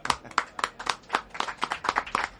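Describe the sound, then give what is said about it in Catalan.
Audience applause for performers at a radio kiosk event on the Rambles: a steady run of many crisp, evenly spaced hand claps from a small crowd, moderately loud and continuous. “Un aplaudiment per ells, però no marxeu, que us deixaré participar en un joc que farem ara.”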